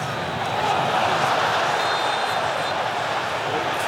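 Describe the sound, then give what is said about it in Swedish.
A crowd roars in a football stadium during a Morocco match, a steady, dense wall of noise that holds at an even loudness throughout. “Samtidigt så hör ni publiken vråla på arenan.”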